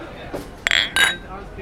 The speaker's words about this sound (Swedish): Så ta en skål på det. Ta min skål på det.